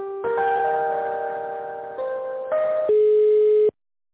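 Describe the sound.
Telephone tones sound while a call is transferred: steady electronic tones held at one pitch, then shifting up and down in a few distinct steps before cutting off abruptly.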